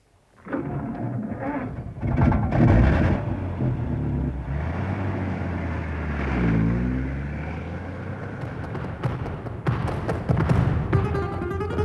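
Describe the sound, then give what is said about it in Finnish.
A car's engine labors and revs as it is driven hard, a loud, continuous low drone that swells and wavers in pitch throughout, with dull thuds mixed in. “Minä yritän ajaa kovasti. No täytyy päästä Banderosson kintereille.”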